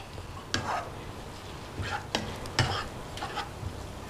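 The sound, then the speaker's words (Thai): Spoon or spatula scraping as coconut flesh is stir-fried with coconut milk in a pan, a few brief scraping strokes over a soft, steady sizzle. “ค่ะนี่เราผัดให้กะทิซึมเข้าไปในเนื้อมะพร้าว”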